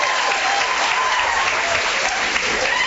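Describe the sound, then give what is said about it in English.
Dense, sustained applause from a television studio audience giving a standing ovation, an even wash of clapping that stays steady and loud throughout. “Standing ovation back there.”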